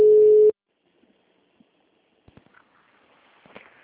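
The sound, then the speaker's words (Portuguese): Telephone busy tone heard after a dropped call on a hospital phone line: one steady, moderately loud beep of about half a second, then near silence with a few faint clicks and soft rustles. “Caiu a ligação que eu tava falando com ele.”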